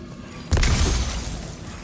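Shattering crash of a mask being smashed in a video game: one sudden loud break that spreads into a rough, decaying rattle of debris lasting over a second.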